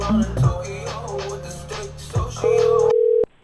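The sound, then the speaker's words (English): Telephone tone for a rejected call: a single long, steady electronic beep follows busier sound and then cuts off abruptly. “We're about to do phone calls. Call rejected.”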